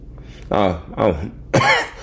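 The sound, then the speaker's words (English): Three harsh coughs come in quick succession, each a short, loud burst roughly half a second apart. “God makes me cough whenever I do that.”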